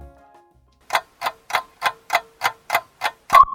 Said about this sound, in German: Weckruf. Den hört ihr gerade